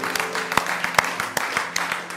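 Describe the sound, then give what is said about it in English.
Congregation applause during a church service: scattered sharp claps over a steady wash of crowd noise, lasting about two seconds. “Let's all stand up and let's give the Lord a round of applause.”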